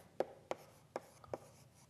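Handwriting strokes as a model is written out by hand during a recitation session: four short, quiet scratchy marks at an uneven pace, with no talk.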